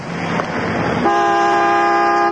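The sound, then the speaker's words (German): A car horn blares at a filling station, one long, loud, steady tone that starts about halfway through and holds to the end, preceded by a rushing background noise. “Hup, solange du willst, du Gartenzwerg.”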